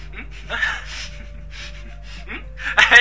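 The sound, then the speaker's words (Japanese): A sharp gasp, a quick demonstrative intake of breath, with breathy hissing bursts and a louder, rougher inhalation near the end. “とりあえず、 うん、 息を飲んでみよう。”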